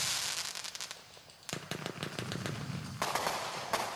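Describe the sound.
A 49-shot fireworks cake bursts in rapid crackling pops and sharp bangs, many quick reports packed close together, fairly faint overall and growing busier toward the end.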